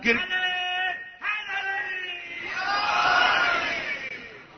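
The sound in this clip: A crowd's chanted reply to a religious slogan, weak and half-hearted: massed voices hold a sustained, moderately loud call that swells and thickens toward the end before tapering off.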